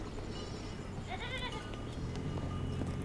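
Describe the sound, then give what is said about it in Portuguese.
Goats bleat as men herd them toward a fence: a few wavering, nasal bleats rise out of a steady background rumble. “Eles tangem os bodes para a cerca.”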